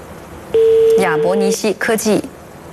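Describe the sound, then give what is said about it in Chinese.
A single steady electronic ringback beep lasting about a second plays while a phone call to a medical technology company's manager waits to be answered. Voices talk over it and continue after it stops. “正在等待接听当中。好，我们此刻正在连线”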